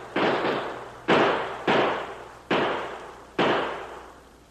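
Gunshots in a radio drama shootout: five sharp, loud bangs spaced unevenly, each with a fading, noisy tail, and no voices between them.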